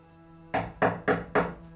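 Four firm knocks on a door, evenly spaced and sharp, each a dull solid thud.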